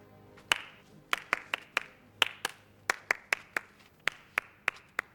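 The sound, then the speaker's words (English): Sharp hand claps sound one after another, many crisp smacks at an uneven, deliberate pace with short pauses between them. “She flinches as he claps at her.”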